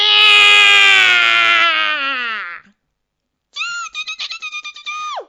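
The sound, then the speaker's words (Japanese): An old man's voice imitates a cat's meow to scare off mice: a long, loud, drawn-out wailing yowl, a short silence, then a second rapid, pulsing string of meows that ends with a sharp drop in pitch. “しめしめ、ここで猫の声を出せば、つづらは二つともわしのもの。”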